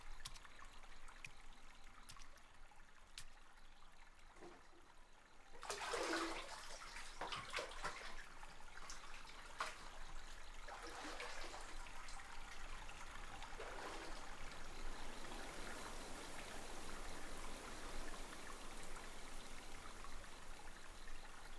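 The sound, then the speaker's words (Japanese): Water sloshes and trickles in a bathtub of hot water as someone gets into the bath. After a few quiet seconds, soft splashes and a steady, gentle trickle continue throughout, with no voices. “それではもう一度湯船に浸かってポッカポカになってから出ましょう。”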